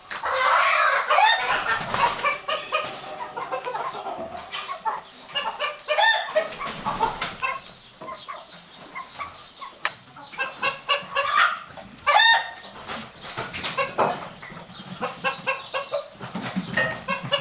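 Hens cluck in many short, irregular bursts of sharp, throaty notes with brief quiet gaps between them.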